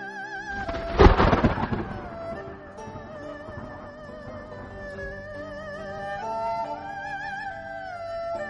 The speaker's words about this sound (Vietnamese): Tiếng sấm truyền đến, mưa to ào ào rơi xuống đất, sắc trời cũng hoàn toàn tối đen.